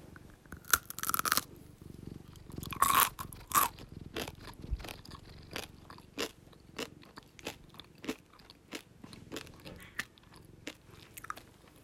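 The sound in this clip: Biting and chewing on a gummy pretzel: a few louder crunchy bites at the start, then many softer, evenly spaced chewing clicks and squishes, with no talk.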